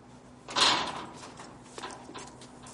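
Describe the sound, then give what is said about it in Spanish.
The door of a shipping container opens with one loud clunk that slowly fades, then a fainter knock follows about a second later. “abre la puerta de un contenedor y sale”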